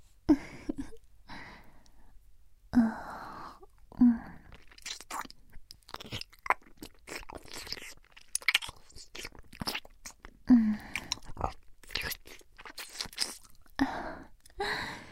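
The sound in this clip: Close-up ASMR ear-eating mouth sounds: wet clicks, smacks and soft nibbling and crunching noises arrive in many irregular bursts, soft overall with occasional sharper pops.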